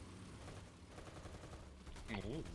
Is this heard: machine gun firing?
yes